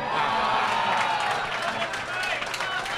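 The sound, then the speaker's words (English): Studio audience at a game show cheering and applauding, a loud, steady roar of claps and shouting voices that holds level for the full few seconds. “Man, whenever you end a sentence with a movie title that he's in, the audience erupts like a volcano.”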